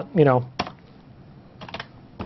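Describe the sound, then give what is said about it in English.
Computer keyboard keys clack as an IP address is typed, in a few short separate bursts of sharp clicks. A brief voice sounds near the start. “So now what I can do is I can type in a specific IP address.”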